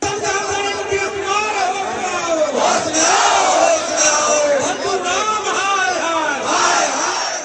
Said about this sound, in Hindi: आज पटना में बीजेपी मुख्यालय में नीतीश के साथ दो दिन पहले तक मंत्री रहे तमाम विधायकों ने धरना दिया नीतीश के खिलाफ नारे लगाए